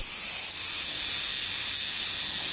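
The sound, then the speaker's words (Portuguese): An insect making a loud noise with its hind legs, a continuous high-pitched hissing buzz that stays steady and unbroken throughout. “Esse inseto está fazendo barulho com as patinhas de trás. Ele se mexe e faz um barulho alto.”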